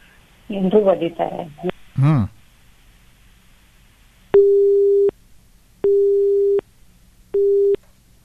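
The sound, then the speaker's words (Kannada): A phone call is cut off: a voice speaks briefly, then a short chirp is followed by three steady, flat beeps of the disconnected tone, evenly spaced with pauses between. “ಕರೆ ಕಟ್ಟಾಗಿದೆ.”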